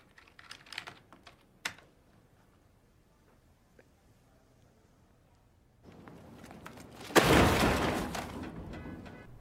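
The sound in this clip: Computer keyboard typing as an address is entered: a quick flurry of light, crisp key clicks at the start, a long near-silent pause, then a loud, broad rushing burst that slowly fades.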